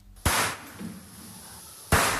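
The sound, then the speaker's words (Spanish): Gunshots from a video of fawns being shot at a slaughterhouse in Segovia: two loud, sharp cracks about a second and a half apart, each decaying quickly, with quieter sound between them. “Así suena el vídeo que ha publicado la Fundación Igualdad Animal, que habla de 200 cervatillos disparados en un matadero de Segovia.”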